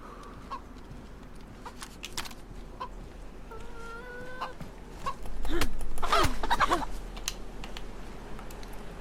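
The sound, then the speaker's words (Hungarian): Chicken clucks come through in a few short, pitched calls, set among many sharp clicks that resemble keyboard typing. The clucks are moderately loud and grow busier toward the middle. “Ott van a csirke.”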